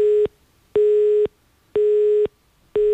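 A telephone busy tone follows a dropped call: four steady electronic beeps at a single mid-low pitch, each about half a second long, separated by equal silent gaps in a strict, even rhythm.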